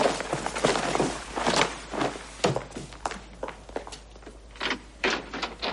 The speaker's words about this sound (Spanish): Doc abre la puerta.